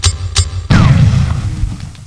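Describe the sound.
A bomb explodes in a video game: two short, sharp sounds come first, then a sudden loud, deep boom that settles into a long, low rumbling decay.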